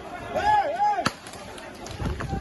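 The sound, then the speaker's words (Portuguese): A single sharp bang from a bomb thrown toward the press as a group advances. The brief, loud crack stands out against a busy, noisy background. “Olha só aqui, eles estão jogando bomba daqui. Jogando bomba aqui na direção da, da imprensa.”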